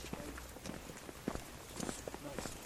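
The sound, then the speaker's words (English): Footsteps of people walking down a steep path give a steady run of soft crunching steps, with people talking over them. “Anyway, we'll walk down here.”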